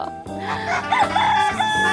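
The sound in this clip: A rooster crows once, a loud harmonic call that wavers in pitch and runs for more than a second.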